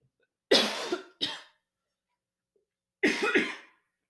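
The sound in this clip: Dry coughing from a tickle in the throat: two short, sharp coughs in quick succession, then silence, then one more rough cough burst after a pause, clear and alone with no talk.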